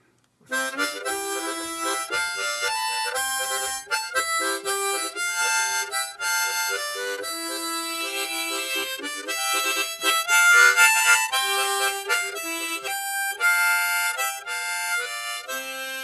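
Harmonica tune played with tongue-blocked noting: a fast, busy stream of bright reedy notes and chords that runs without a break after a brief silent start, with a few louder swells.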